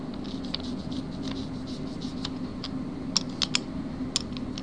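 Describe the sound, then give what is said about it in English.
Tacky crackle of a letterpress roller inking up type letters, a soft continuous patter with a few sharper clicks near the end over a low steady hum. “So this is the sound of the letterpress. That's me inking up the roller. And now here I am inking up my letters.”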